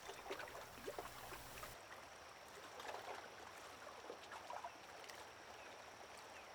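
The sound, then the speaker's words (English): River water lapping and trickling in a soft, continuous wash with small irregular splashes, faint throughout. “The soothing sound of the river's lapping water becomes a lullaby, causing you to feel a little drowsy.”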